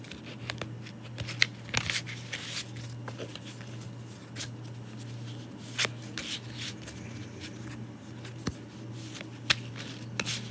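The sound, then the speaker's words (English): Goddess guidance oracle cards are shuffled by hand, giving many soft, irregular riffling flicks and taps. The sound is quiet throughout, over a faint steady low hum. “I'm going to do the goddess guidance oracle cards. See what the goddesses have to tell us for this week.”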